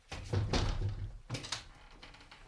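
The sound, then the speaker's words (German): A window is opened, heard as two quiet bursts of thuds and rattling knocks, the first longer, followed by near silence. “Kann man das Fenster aufmachen? Ja, bitte.”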